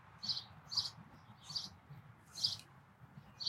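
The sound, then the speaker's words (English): Birds chirp outside in short, high, faint calls. The calls repeat at irregular intervals over a low, quiet background rumble. “The birds are going crazy right now, though. Yeah, the birds are a bit distracting.”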